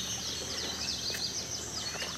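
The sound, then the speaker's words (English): Birdsong on a lush coastal island of the Georgia and South Carolina Sea Islands, with giant oaks, salt marshes and lagoons: a faint, steady chorus of high chirps and tweets over a soft hiss. “The birds compose a symphony around you.”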